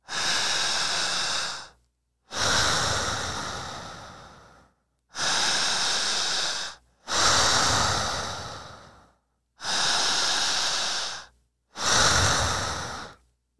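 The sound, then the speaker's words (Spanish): Six loud, slow breaths drawn in and out through an open mouth during a hypnosis relaxation exercise. Each is a broad, airy rush lasting one to two seconds, with short silent gaps between them. “Si usted se encuentra en casa, cierre los ojos, abra la boca y empiece a respirar de esta forma.”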